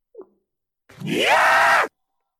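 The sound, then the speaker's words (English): A zombie's raspy groan from a Call of Duty zombie video game: one drawn-out moan that rises in pitch and then holds loud for nearly a second, after a brief faint sound. “No, that is a Call of Duty zombie game.”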